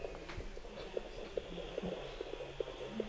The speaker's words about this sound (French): Vous suivez avec moi les bruits du cœur fœtal. Les bruits normaux varient entre 120 et 160 battements par minute.